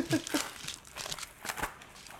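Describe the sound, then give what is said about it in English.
A tightly wrapped, tube-shaped Christmas gift being unwrapped, with several bursts of crinkling and tearing paper in an uneven rhythm. “I got handed some kind of tube. Get that ASMR. It's very well wrapped to the point where it's difficult to open.”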